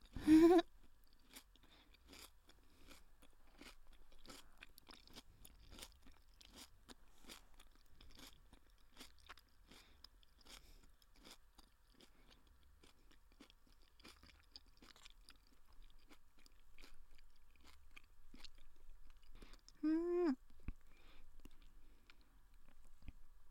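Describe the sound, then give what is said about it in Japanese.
Crunchy, crisp food being chewed, with many sharp crunching bites repeating steadily throughout. The chewing is faint. “お腹が減っとると、歯ごたえあるものに惹かれるあるね。まだまだ食べるあるよ。”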